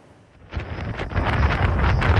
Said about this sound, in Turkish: Hindistan'da kum fırtınası hayatı felç etti. Rajasthan eyaletinde görüş mesafesi sıfıra indi. Kum fırtınaları devam edecek.